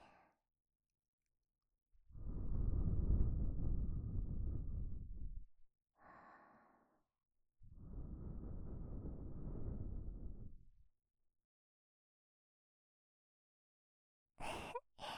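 Gentle blowing into the listener's ear to clear away dirt, two long soft airy blows of about three seconds each, with a few short quieter breaths between and around them and silence in the gaps.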